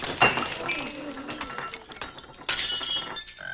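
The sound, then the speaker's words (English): Glassware shatters as a pole smashes through a row of it: a loud crash of breaking glass with tinkling shards, then a second sharp burst of shattering. “the pole smashes through a row of glassware.”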